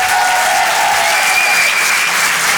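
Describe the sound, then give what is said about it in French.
Audience applause in a comedy club, a brief burst of full, even clapping that stays loud throughout, with no voices rising above it. “Faites du bruit, s'il vous plaît, pour Nina Azoulay”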